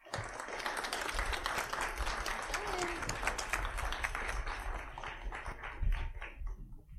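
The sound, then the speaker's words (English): A crowd gives sustained applause welcoming speakers onto the stage at a live book event, a steady wash of many hands clapping at even loudness throughout. “please give a loud welcome to the Fierce Reeds Tour”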